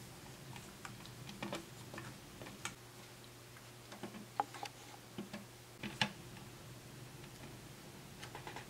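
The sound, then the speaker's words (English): Faint, scattered small clicks and ticks as little button screws with washers go into mounting holes while a GPU mount is assembled. The light taps come irregularly, a few at a time, over a soft steady hum, with no talking. “you're going to grab three of these little washers and install them on the little button screws. Only install these three screws.”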